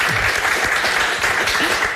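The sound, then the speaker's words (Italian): Audience applause: loud, dense, steady clapping from a crowd that fills the whole moment without a break. “Applauso per Eva.”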